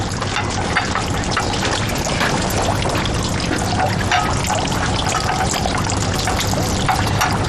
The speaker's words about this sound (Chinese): 行，你们先进去，我洗点水果进去。